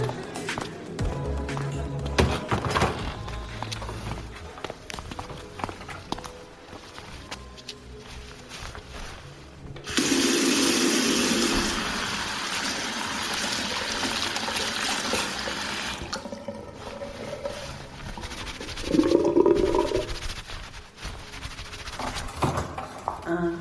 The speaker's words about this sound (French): Bah, c'est pas grave, c'est rien. Je vais aller me rincer à la cuisine.